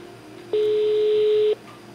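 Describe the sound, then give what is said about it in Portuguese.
A single ringback tone on an outgoing telephone call, one steady mid-pitched beep lasting about a second that starts and stops abruptly over a faint hiss. “Vou ver se ele atende. Oi? Chamou. Tá chamando.”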